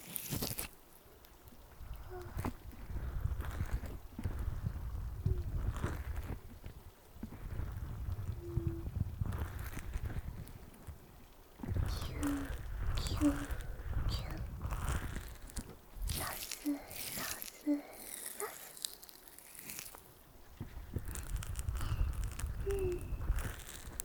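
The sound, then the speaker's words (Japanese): Close ASMR rubbing and brushing on an ear, working over the ear's grooves and the entrance of the ear canal. The sound is a continuous scratchy, crackling swish whose loudness rises and falls in waves, with no voice. “耳の溝の部分や耳の穴の入り口もキュキュキュサスサスサス。”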